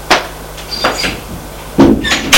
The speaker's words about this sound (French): Sonne à la porte, le voyant vert s'allume. Elle ouvre la porte et la fait entrer.